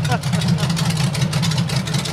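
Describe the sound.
A diesel-engined motorcycle runs steadily after starting, a low throbbing mechanical hum with a fast, even pulse that holds constant throughout, with some talking over it.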